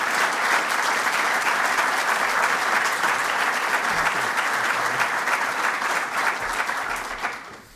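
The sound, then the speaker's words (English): Audience applause welcoming a speaker to the platform at a morning gathering: dense, sustained clapping from many hands at a steady, loud level that tapers off at the very end. “Would you join me in welcoming Dr. Bill Olson to our platform this morning?”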